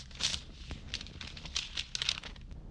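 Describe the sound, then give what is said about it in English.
Soft paper rustling as a letter is drawn out of its envelope, a faint run of light crinkles and scrapes with no voices. “Her letters to me. Go ahead, take one of them out of the envelope and read it.”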